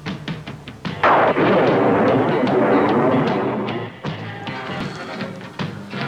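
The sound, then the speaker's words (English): Loud explosions from bombs going off: a few sharp cracks, then a dense, sustained rumbling roar that slowly fades, followed by more scattered bangs. “Too many bombs.”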